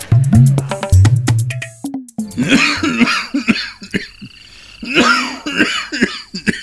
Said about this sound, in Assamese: is ককা আকো কাহিছে